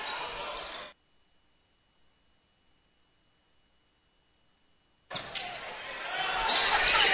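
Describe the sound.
Basketball being dribbled on a court during a game, with bursts of noisy court sound under a commentator's talk, broken by a few seconds of near silence.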